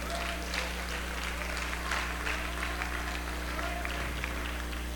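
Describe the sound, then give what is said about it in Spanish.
A church audience applauds during a Spanish-language service, with steady, dense clapping that is faint and even throughout over a low background hum. “Dele un aplauso a Cristo.”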